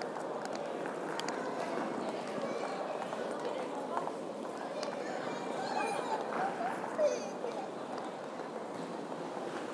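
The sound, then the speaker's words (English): Footsteps along a tactile paving path on a European street, a steady run of soft scuffing steps mixed into continuous ambient noise, with talking present. “And for the audio's sake, I'm walking along a tactile path here.”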